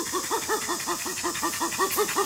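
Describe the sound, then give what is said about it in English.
Chimpanzee pant call, the kind given in an affiliative context during an approach: a long, even series of short, breathy voiced pants with arched pitch contours, repeating rapidly and steadily at moderate loudness, with no other sound. “a pant is given in an affiliative context, usually during an approach, and sounds a bit like this.”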